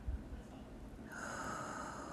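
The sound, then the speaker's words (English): A person inhaling a breath: a soft, airy, drawn-in hiss that is faint and steady, with no talk over it. “Inhale.”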